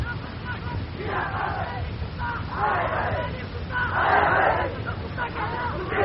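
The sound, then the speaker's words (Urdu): A rally crowd shouts slogans in a few loud surges, a rough roar of many voices rising over steady background babble. “دوستو جو نعرے آپ لگانا چاہتے ہیں اس کو اسٹاک رکھیے, اپنے توانائیوں بچا کر رکھیے,”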